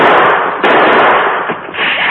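Gunfire during a Western shootout among rocks: a dense, loud, crackling volley of shots, with a few sharper reports breaking through the continuous din.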